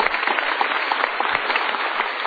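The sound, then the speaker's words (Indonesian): Steady, dense applause from a studio audience at a live talk show, a continuous crackle of clapping hands that keeps an even loudness throughout. “Untuk yang memilih A, kita berikan tepuk tangan.”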